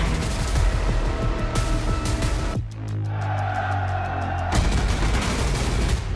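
Explosions and gunfire from a movie naval battle set in 1942: a dense, loud barrage of blasts and shots, easing into a lower rumbling lull midway before the heavy firing resumes.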